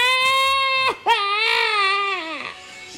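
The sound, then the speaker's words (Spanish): A voice imitates a child crying in a comic story, a loud wavering wail that breaks off briefly and then resumes in a long, quivering cry that trails away. “Y el chinito se puso a llorar. ¿Y eso por qué? Y llore, llore toda la noche.”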